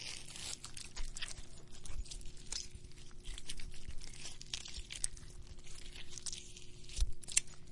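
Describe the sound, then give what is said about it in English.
Something being ripped to pieces, a fairly quiet run of crinkly tearing and crunching that continues with little pause throughout. “Now rip that fucking thing in the pieces.”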